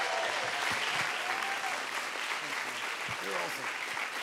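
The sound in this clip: A church audience on its feet applauds a guest pastor in a big welcome. Dense, steady clapping runs the whole time, with voices and cheers mixed in.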